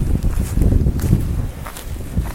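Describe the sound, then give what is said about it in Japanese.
Footsteps of people walking at night in a video game: many soft, low thuds in an irregular pace over a faint rustling background. “深夜なのに人が歩いてますね散歩かな”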